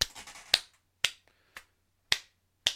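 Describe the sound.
Sharp, isolated hand claps ring out one at a time at a slow, fairly even pace, each a crisp, bright slap standing alone, with a brief flurry of softer activity at the very start.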